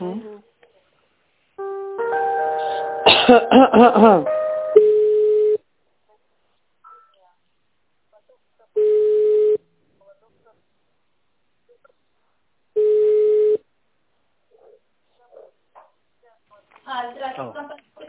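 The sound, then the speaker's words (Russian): Telephone line tones play while a call is being transferred: two separate steady, mid-pitched beeps of under a second each sound alone in the middle, with voices talking before and after them. “со Светланой можете пообщаться, я вас сейчас переведу”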